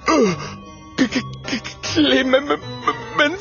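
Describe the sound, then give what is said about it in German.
A ghostly howl in an audio story, voiced as a wavering, moaning wail: it opens with a falling glide, then breaks into several shorter quavering bursts of varying pitch. “In diesem Augenblick hören sie ein schauderhaftes Heulen.”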